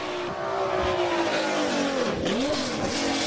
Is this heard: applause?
no

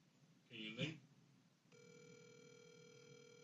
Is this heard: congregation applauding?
no

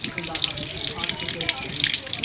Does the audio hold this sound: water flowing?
yes

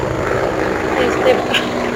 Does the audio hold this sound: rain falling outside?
no

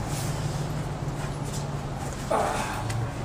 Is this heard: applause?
no

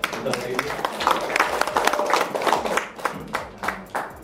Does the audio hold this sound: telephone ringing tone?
no

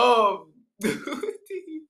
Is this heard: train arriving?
no

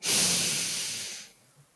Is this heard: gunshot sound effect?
no

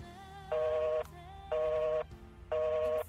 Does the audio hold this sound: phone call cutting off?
yes

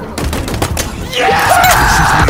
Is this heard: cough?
no

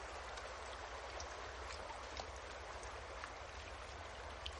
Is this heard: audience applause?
no

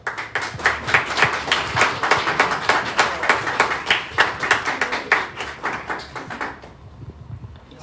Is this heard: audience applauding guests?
yes

